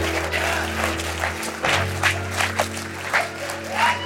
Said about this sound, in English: Oh wow, standing ovation, amazing. Standing ovation for William Wallace.